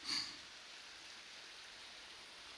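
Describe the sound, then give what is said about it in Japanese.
Fizzing foam bubbles wrapped around the ears during an ear-massage ASMR session give a soft, steady crackling hiss after a brief louder burst at the very start. “それじゃあ最後に泡でお耳を包もうか。”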